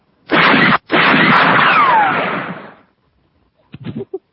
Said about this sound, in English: You don't know when somebody fires a gun? That was like one of the old Western ones.